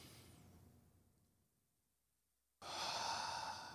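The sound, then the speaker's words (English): A deep breath drawn in during a guided eyes-closed relaxation exercise: a faint airy hiss fades to near silence, then a sudden, fuller breathy rush of air fills the remaining second. No one speaks. “Keep your eyes closed. I don't know if we do this enough. Take a deep breath in with me.”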